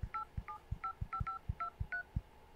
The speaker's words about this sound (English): I'm going to turn on the sound so you can hear me dial.